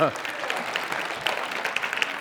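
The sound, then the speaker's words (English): Church audience applauding a hand-clap offering during a worship service: a dense, steady wash of many hands clapping that holds for the whole stretch. A brief voice is heard right at the start. “Give God a hand clap offering.”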